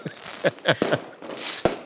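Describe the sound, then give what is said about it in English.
Fireworks from an on-screen video effect go off in brief bursts: short tonal chirps, a crackling spray and two sharp pops, all fairly faint. “Why are there fireworks going off behind you?”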